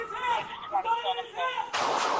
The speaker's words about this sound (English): that officer discharged multiple rounds from their duty handgun.